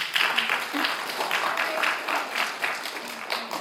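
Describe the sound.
Audience applause welcoming a woman speaker at a morning gathering: steady, dense clapping that continues throughout, with faint voices underneath.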